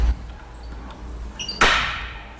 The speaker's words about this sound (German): Kann ich das Ventil auch ein bisschen öffnen?